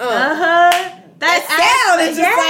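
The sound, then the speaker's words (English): A single sharp hand clap stands in for a smack on the buttocks, a crisp slapping burst heard once early on, set among continuous, drawn-out vocalising from people's voices that carries on before and after it. “Or the ass smack. I'm with you with the ass smack. The sound of it, just that.”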